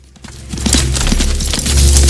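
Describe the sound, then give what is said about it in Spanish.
Galloping horse hooves as a young woman rides toward a mountain in a fantasy film scene: a loose run of dull thuds over a steady low rumble that grows louder toward the end. “La joven cabalga en dirección a la montaña.”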